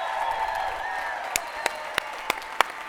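Scattered applause greets a guest coming on stage at a church service: five sharp, separate claps ring out over a steady crowd murmur in the second half.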